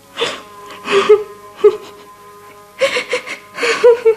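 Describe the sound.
A woman cries in uneven bursts of sobbing, with wavering moans and sharp gasping breaths between them.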